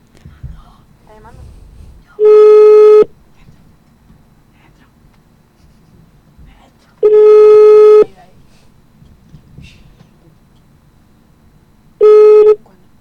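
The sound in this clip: A telephone busy signal: three steady, mid-pitched tones, each about a second long, separated by roughly four-second gaps over a faint, quiet background.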